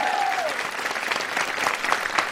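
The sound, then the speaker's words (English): Live studio audience applauding on a talk show, with dense, sustained clapping throughout. A brief falling whistle-like tone sounds at the very start. “There's a live crowd here to say hi to you.”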